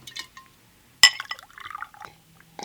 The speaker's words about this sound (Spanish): Eché un vistazo a la ciudad iluminada y tranquila a las 3 de la madrugada y decidí prepararme una copa.